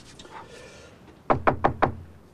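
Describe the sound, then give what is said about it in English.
Knuckles knock four times in quick, even succession on the door of a snow-covered suburban house. The solid, firm raps stand out after a quiet lead-in, and nobody speaks. “walks up to one of the pretty snow-covered houses, and knocks on the door.”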